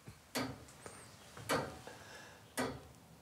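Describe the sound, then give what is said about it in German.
A large striking clock's mechanism gives three faint, sharp ticks, evenly spaced about a second apart, with quiet between them. “Also diese ganze Uhr ist in zwei Hälften eingeteilt. Die rechte Hälfte ist die eigentliche Uhr mit dem Kontrollzifferblatt.”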